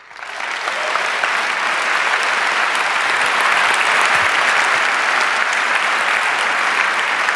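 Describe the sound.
An audience applauds to welcome a speaker to the stage at a security talk. Clapping swells within the first second into a dense, loud, steady roar of many hands that holds evenly to the end.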